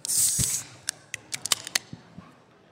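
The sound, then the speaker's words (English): A drink can is cracked open with a sharp pop and a half-second hiss of fizz, followed by a few faint, scattered clicks, all fairly quiet. “let's crack it open. If anybody else in the crowd, by the way, has a drink that they have not cracked, crack it.”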